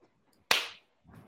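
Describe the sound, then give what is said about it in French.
A single sharp clap marks the start of a recording for a French discussion: one loud, crisp slap with a short, bright decaying tail, and quiet otherwise. “On, fait, un clap. Clap.”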